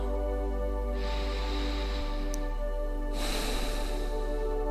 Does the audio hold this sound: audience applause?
no

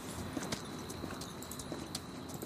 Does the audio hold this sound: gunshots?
no

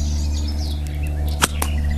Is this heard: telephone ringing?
no

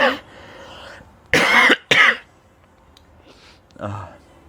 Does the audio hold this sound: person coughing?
yes

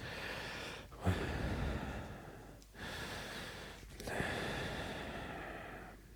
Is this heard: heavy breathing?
yes

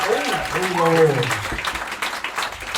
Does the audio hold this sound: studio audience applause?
yes

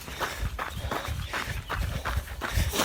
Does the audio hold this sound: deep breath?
no

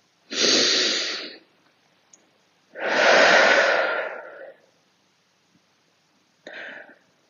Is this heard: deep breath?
yes

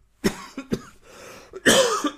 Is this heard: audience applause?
no

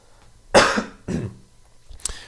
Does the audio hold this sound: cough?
yes

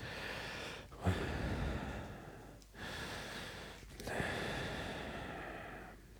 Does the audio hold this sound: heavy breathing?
yes

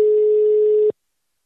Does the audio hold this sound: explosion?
no

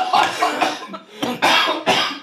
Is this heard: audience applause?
no

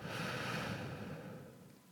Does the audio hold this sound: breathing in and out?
yes

